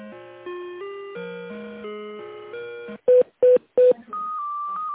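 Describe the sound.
Telephone transfer tones: a slow electronic melody of stepped tones, then three short, loud beeps in even succession, then a steady higher tone. No talk.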